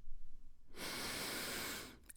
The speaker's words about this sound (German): Und lass uns einatmen.